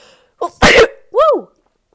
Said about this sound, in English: that sneeze was appropriate.